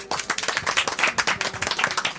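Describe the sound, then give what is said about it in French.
Audience applauding: a dense, continuous stream of many hand claps, fairly loud and steady from start to finish, with no voices standing out. “En tout cas, moi je pense que vous pouvez toutes et tous vous applaudir.”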